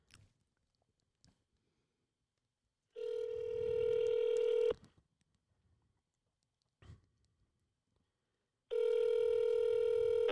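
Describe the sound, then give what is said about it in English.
Outgoing telephone call on speakerphone, with two long, steady buzzing ring tones separated by a quiet pause and a few faint clicks and knocks between them. “We're going to dial this. I'm going to put it on speaker.”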